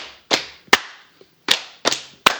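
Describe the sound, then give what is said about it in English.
Five sharp, loud smacks of a hand on a table during an excited party game, striking in an uneven rhythm, with a couple of much fainter taps between them. “Smack the table because I got really excited.”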